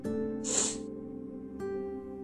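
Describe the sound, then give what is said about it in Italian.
A single sharp nasal sniff from someone with an allergy, a short hissing burst rising over a faint, steady background hum and then fading. “scusate se tiro il naso ogni tanto perché non lo so, mi sveglio con l'allergia.”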